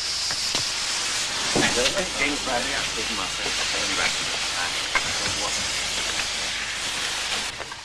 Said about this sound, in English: A train door opens into the clearing steam, and Mortimer, Sir Henry and Watson step out